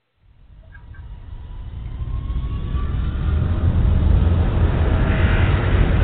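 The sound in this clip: An aircraft accelerates down the runway on its takeoff roll, a broad engine roar rising out of silence and growing steadily louder over about six seconds, with no talk.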